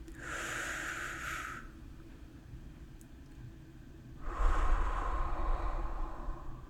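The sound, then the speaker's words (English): A deep, relaxing breath: two long airy breath sounds separated by a pause of a couple of seconds, the second fuller and lower than the first, with no talking. “Please take a deep breath to relax.”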